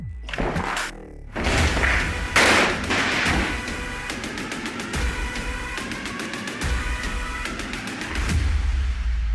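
Rifle gunshots in a political campaign ad: a few heavy, booming blasts open, then a long, rapid volley of sharp cracks follows, loud and dense, with a final swell of shots near the end.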